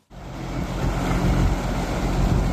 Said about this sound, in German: Da fährt sie, die schwimmende Bühne für die Eröffnungsfeier, mit Schleppern einmal über den Maschsee gezogen bis ans Nordufer.